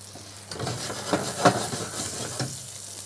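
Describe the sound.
Fish frying in butter in a pan: a soft, steady sizzle with a few light clicks and crackles.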